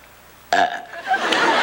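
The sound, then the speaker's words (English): A single long, throaty belch bursts out suddenly and rumbles on raggedly until the end, with no talking over it. “teach me to belch. It's easy. Just take a deep breath, then swallow really hard.”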